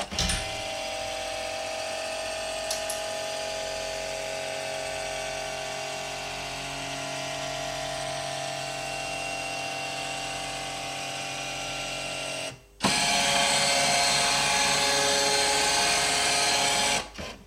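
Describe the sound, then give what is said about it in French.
A document scanner scans a paper rent receipt with a steady mechanical whine and hum for several seconds. After a brief pause it switches to a louder, harsher buzzing whir that stops abruptly. “j'ai mis une feuille de loyer, le truc typique qu'on reçoit dans les boîtes aux lettres, quoi. La quittance de loyer du mois d'août. Et donc, voilà, on va entendre, puisque j'ai mis le micro vers le scanner.”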